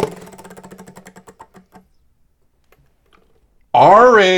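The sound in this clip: A spinning prize wheel clicks as it turns, with rapid ticks that gradually slow and spread apart until the wheel stops. After a short pause a person starts talking.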